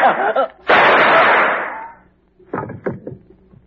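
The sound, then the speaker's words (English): A shotgun blast in a radio drama: one loud, broad boom that decays over about a second, with a brief voice before it and speech resuming afterward. “I told you I was going to use only one shotgun.”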